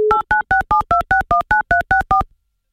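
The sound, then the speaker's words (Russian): Telephone keypad dialing tones as a game show places a call to a contestant: eleven short, evenly spaced two-tone beeps in rapid succession, loud and alone with no talk. “Прямо сейчас мы будем пытаться связаться с Константином.”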